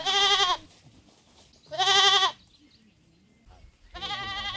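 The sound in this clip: A flock of goats or sheep bleats as it passes along a mountain tea plantation. Three loud, nasal, quavering bleats are separated by quieter gaps with soft shuffling.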